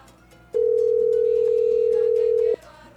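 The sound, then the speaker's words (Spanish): A telephone dial tone: one steady, loud, even hum that cuts in sharply and holds for about two seconds before stopping abruptly, over a faint background. “Así que vamos a marcar por aquí, por aquí, por aquí, por aquí, por aquí.”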